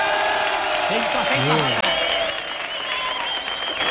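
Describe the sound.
Loud applause and cheering from a live studio audience fill the whole clip as a dense, steady roar, with a voice briefly calling out over it in the middle.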